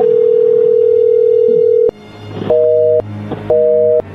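A telephone line gives a loud, steady dial tone. After a short gap, two brief two-pitch ringing tones follow, evenly spaced.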